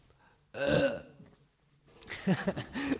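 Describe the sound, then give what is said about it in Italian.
A loud, throaty burp, followed after a short pause by a second, longer and rougher burst. “a me un rutto non fa ridere dalla quinta elementare, invece in queste situazioni... Ma un rutto alla radio è tutta un'altra cosa.”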